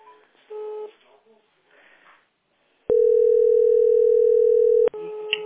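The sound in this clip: Steady telephone dial tone heard while placing a call, a loud, unbroken tone holding for about two seconds after some muffled, speech-like sounds on the line.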